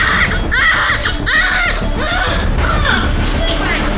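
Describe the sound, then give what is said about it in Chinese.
A newborn baby boy cries just after a caesarean delivery in a hospital, loud, repeated wavering wails in short bursts over steady background noise. “孩子出生了，是个男孩。”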